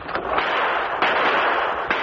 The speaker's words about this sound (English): Sid Gordon and Woody Oakes stepped from a thicket and opened fire into the air